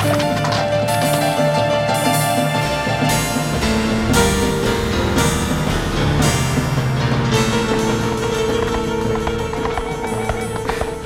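A spooked, unruly horse gallops with rapid, repeated hoof beats under a dense, continuous tonal layer. The sound stays loud and steady throughout.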